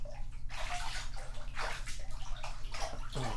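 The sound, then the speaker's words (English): Water pours and splashes as a child is rinsed off in a bathtub, coming in several rushing bursts over a constant sloshing wash, fairly soft and without talk. “Okay, now we need to rinse you off.”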